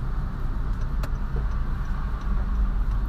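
A car is being parked: a steady low engine rumble holds throughout, with a faint click near the start.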